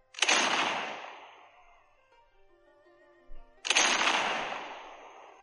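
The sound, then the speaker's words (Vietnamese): Two heavy cannon blasts boom from far away. Each strikes loudly, then fades in a long, low rumble, with a quiet gap between them. “Nơi xa vang lên tiếng pháo ầm ầm, cắt đứt lời của hắn”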